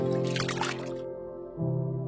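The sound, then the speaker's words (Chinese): A brief watery slosh and trickle as a baby bottle of freshly mixed formula is dipped into water to cool. It lasts about a second over a steady musical background, then stops. “水一开，荣美子便熟练地用奶瓶冲调奶粉，奶粉融化后，她把奶瓶浸入一旁的水里降温。”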